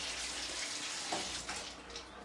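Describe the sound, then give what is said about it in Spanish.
Light drizzling rain gives a faint, soft, continuous hiss of falling water that stays even throughout about two seconds. “El agua. Esta es una lluvia donde me puedo parar sin paraguas.”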